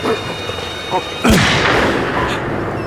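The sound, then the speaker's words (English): A single loud gunshot is fired at a wolf pack in falling snow, a sharp blast followed by a decaying rumble. Voices are heard around it. “You need to fire on them. We could miss! Just fire!”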